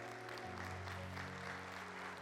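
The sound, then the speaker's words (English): Applause from an audience as current and former service members come forward to be honored at a ceremony. The clapping is a steady, even wash of sound that stays at an unbroken level from start to finish. “Let's give them a hand as they're coming.”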